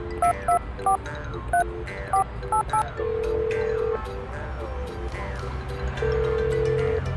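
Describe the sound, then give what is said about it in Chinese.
Someone dials a telephone in a hurry to call a friend. A quick series of keypad beeps is followed by two long steady tones over a constant low background hum. “不行，得赶紧给英雄打个电话。”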